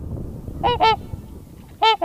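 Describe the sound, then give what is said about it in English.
Trumpeter swans call at dawn from the water, where about two hundred roost near the ice edges. Four loud, rich, horn-like honks come in two quick pairs, with quiet gaps between them. “The trumper swan has this really rich trumpet-like call.”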